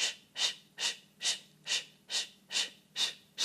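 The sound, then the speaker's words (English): A person breathes rapidly in and out through a hissing shh sound, with about eight evenly spaced breathy bursts in a quick, steady rhythm and no pauses between them. “Use shh as you breathe in and out quickly with no suspension. This will make the book dance like this.”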